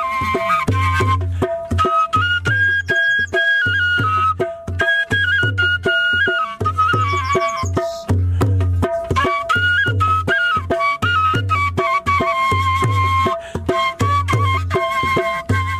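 Shepelai flute melody played alone, loud and continuous, with sustained wavering notes and bright overtones above a steady, low pulsing accompaniment throughout.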